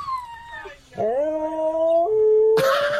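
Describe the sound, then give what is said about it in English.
Two dogs howl to each other over a video call. A high howl slides downward first, then long, sustained tonal howls answer at a lower pitch, and the howling ends with a harsh, noisy burst. “It's an amazing video of two dogs chatting on FaceTime. Right, it starts with the first dog, and then the other dog starts howling.”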